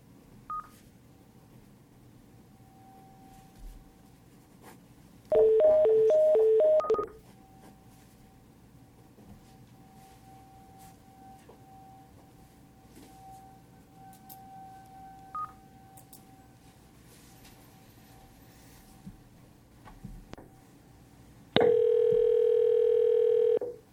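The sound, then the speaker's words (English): Telephone being dialed: a quick burst of touch tones, then a long quiet stretch with a faint steady tone, and finally a loud steady tone near the end. “I'll go ahead and dial them.”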